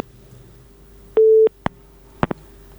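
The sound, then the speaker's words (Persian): A telephone tone sounds after a call-in caller's line is cut off: one short, steady, low tone, followed by three sharp clicks over a faint background hum. “تماسشان فکر میکنم قطع شد. خب خدا کنه برادر ما دوباره تماس بگیرن.”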